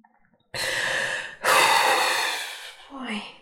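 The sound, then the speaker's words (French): Two long, forceful exhalations of breath come one after the other, each a strong airy rush, followed by a shorter, softer breathy sound. “Faut que je souffle. Faut que vous souffliez. Alors allez-y. Soufflez. Soufflez jusqu'à ce que vous sentiez qu'il n'y a plus rien à expulser, qu'il n'y a plus de colère.”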